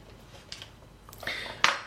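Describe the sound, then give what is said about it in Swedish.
A table knife cuts a piece of butter and clinks against a dish. A few faint, light clinks and taps come at irregular intervals, and the last one is the sharpest, over a quiet background. “Då börjar jag med att skära av en bit smör.”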